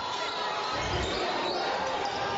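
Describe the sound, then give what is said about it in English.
A basketball is dribbled on a court as the Chargers stall to run time off the clock in a game, its bounces blended into a steady wash of crowd noise. “As the Chargers dribbling the basketball and just trying to somewhat eat some time away and almost taking a little bit of a stall ball tactic.”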